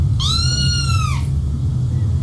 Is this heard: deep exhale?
no